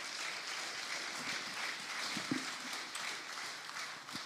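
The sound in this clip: Congregation applause greets a speaker coming up to talk about the church's outreach ministries, a faint, steady patter of many hands clapping that stays even in level throughout, with no clear voices.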